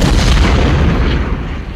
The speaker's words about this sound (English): The shelling. Constant, unrelenting. Coal boxes, heavies, whiz-bangs, all of them.